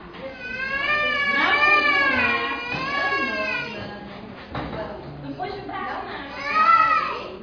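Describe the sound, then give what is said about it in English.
A child cries and wails while a blood sample is taken. Several drawn-out, high, tonal cries waver up and down in pitch, broken by short pauses, with the loudest outburst near the end. “That noise is the child reacting to the blood sample being taken.”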